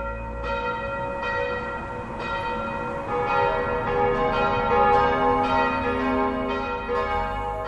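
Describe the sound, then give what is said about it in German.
Church bells ring at midday from a red-brick church in Berlin-Pankow. Many repeated strikes blend into a steady, overlapping wash of sustained metallic tones with no voices. “Mittags klingen hier die Glocken.”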